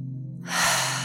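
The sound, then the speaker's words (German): A breath exhaled through the mouth during a breathing exercise with shoulder rolls: one soft, airy whoosh swells in after a short pause and holds to the end, over a steady low hum. “Atme ein, roll die Schultern über vorn. Und ausatmen, lass los.”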